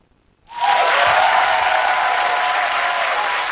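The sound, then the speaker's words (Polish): Audience applause fills a radio studio during a public meeting with two book authors, bursting in suddenly after a brief silence and holding as a dense, steady, loud clatter of many hands, with no voices over it. “Agnieszka Obszańska, wielkie brawa”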